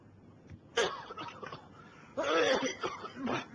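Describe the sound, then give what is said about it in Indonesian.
A few faint coughs: one short, sharp burst, then a longer, rougher, throaty bout of coughing. “Batuk, oi.”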